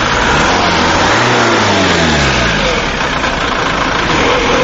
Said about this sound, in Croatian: svoju igru sa papučicom za gas na parkingu ovako je objasnio